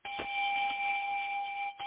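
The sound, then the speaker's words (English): A welcome bell effect for a first-time caller: a single sustained electronic tone with a bright upper overtone, steady and fairly loud for under two seconds before stopping. “you get the welcome in bell. All first-time callers get that.”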